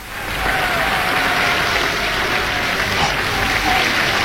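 A performance audience applauds and calls for the performer, producing steady, loud, continuous clapping that carries evenly through the whole passage.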